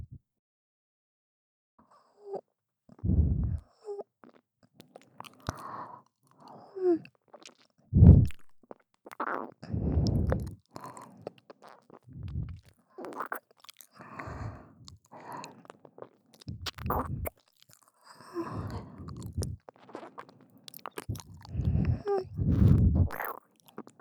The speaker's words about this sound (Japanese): では失礼して、舐めさせていただきますね。